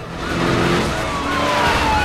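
A car accelerates toward a level crossing: loud, steady engine and road roar that holds throughout, with a faint high whine running above it.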